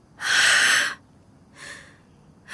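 A child taking deep breaths: a long, loud, airy breath, then a softer, shorter one, and the start of a third at the end, each hissy with no voices.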